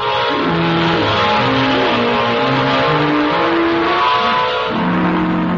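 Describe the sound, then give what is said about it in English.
A car engine drives off and revs, a loud, continuous mid-pitched hum whose tone shifts up and down with the throttle. “we drove down to the dingy neighborhood of 132 Adolphus Street”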